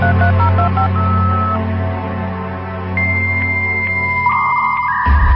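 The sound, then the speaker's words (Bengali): Touch-tone beeps of a telephone number being dialed: a quick run of short pitched tones, then longer held tones, over a steady low hum before an abrupt change at the end. “এই যে number, এই যে, আমি phone দিচ্ছি।”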